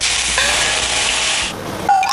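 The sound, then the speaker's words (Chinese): Food sizzles as it is pan-fried until golden, a loud, steady hiss that holds for about a second and a half, then drops away before a brief, bright tone cuts in near the end. “我们差不多要煎了， 来吧， 这样子，”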